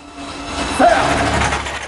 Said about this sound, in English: The overhead carousel is still whirring around in a circuit, carrying clothes and Angel still bound up in cling film.